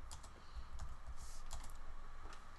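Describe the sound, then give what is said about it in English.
Keys clatter on a computer keyboard as someone types into a Microsoft Word document, many quick soft clicks in an uneven stream over a low steady hum. “Sorry, we're writing this down on the fly. Got Microsoft Word open.”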